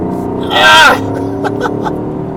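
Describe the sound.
Engine of a powerful 585-horsepower car accelerating, a steady low drone running beneath an excited voice that rises sharply and then falls away.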